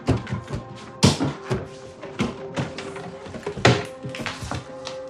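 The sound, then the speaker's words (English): Kitchen cupboards and drawers being opened and rummaged through during a hurried search: an irregular string of wooden knocks, clunks and rattles, with a few sharper loud thumps standing out among many softer bumps. “He searches through cupboards and drawers.”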